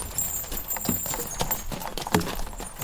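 Hooves of a horse pulling a tourist carriage clip-clop in a steady, even rhythm, with many moderately loud hoof strikes following one another.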